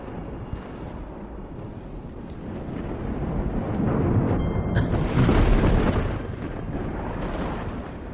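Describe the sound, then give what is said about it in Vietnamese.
Thunder rolls during rain: a low, deep rumble that swells through the middle and slowly fades again, with no voices. “Tiếng sấm này vẫn còn đang đùng đùng vang lên”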